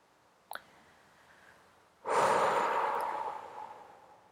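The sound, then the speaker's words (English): A deep breath, held at full capacity during a meditation exercise, is released as a long exhale through slightly parted lips. A faint brief click comes first, then a loud, airy rush that fades gradually over about two seconds. “go ahead and hold the breath when you are absolutely full. And then exhale everything out through slightly parted lips. Make sure you're all the way empty.”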